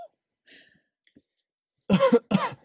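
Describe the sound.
A person coughs after choking while swallowing: two short, harsh coughs in quick succession, loud against the near-silence before them.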